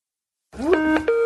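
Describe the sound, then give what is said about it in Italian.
A Skype call's electronic connecting tone plays from a recording: a short rising sweep, then a few steady, clean synthetic notes that sit bright and sustained with no voices. “Ascoltiamo questa chiamata in Skype. Mettiamo la registrazione.”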